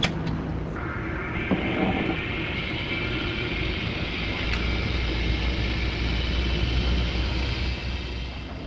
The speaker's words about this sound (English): So now what I'm going to do is put this in a centrifuge and spin it down so that the cells collect all at the bottom in a little pellet.